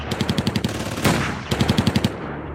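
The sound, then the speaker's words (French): Gunfire in a police shootout with gang members on a Belgian motorway: two rapid bursts of sharp, evenly spaced shots, separated by a louder sustained roaring surge, with no voices. “C'est un déchaînement de coups de feu.”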